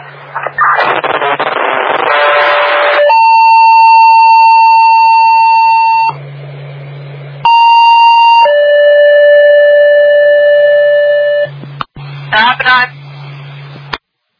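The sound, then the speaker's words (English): Siren test during a radio and siren check: loud steady electronic tones that step between pitches, broken by bursts of noisy radio sound over a low hum. “received radio and siren check okay”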